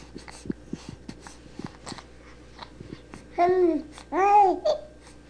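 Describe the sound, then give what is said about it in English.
A human vocal sound that ends with breath drawn back in: soft clicking mouth noises, then two short, loud, wavering voiced cries, the second ending in a brief inhale. “That was another one with the breath drawn back in at the end. That was another sound.”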